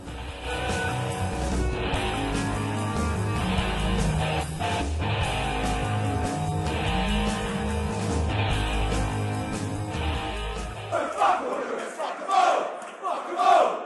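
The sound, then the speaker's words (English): About 2,000 Millwall fans chant together at Valley Parade during a playoff semi-final first leg, a loud, rough, sustained roar of massed male voices that carries on steadily before breaking up into scattered shouts near the end. “As you can hear, 2,000 Millwall fans have come up to Valley Parade for the playoff semi-final,”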